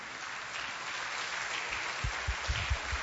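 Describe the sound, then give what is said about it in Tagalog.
A church audience applauding during a morning service, a dense, steady wash of many hands clapping that holds at an even level, with a few heavier low thumps toward the end. “Pwede po tumayo tayong lahat mga kapatid at palakpakan natin ang Panginoon sa umagang ito.”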